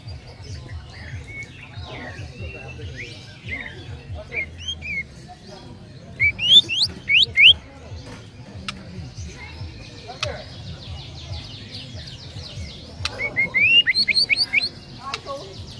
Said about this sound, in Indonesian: kenari, kenari, pokok. Itu yang satu, untuk kenari.